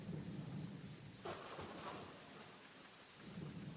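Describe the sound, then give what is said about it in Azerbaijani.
Soft, steady rain with thunder: a continuous hiss of falling rain under low, rolling rumbles, quiet throughout with no voices. “Bu tapmacanın cavabı yağışdır. Bəli, Tanrı rəhməti olan yağış.”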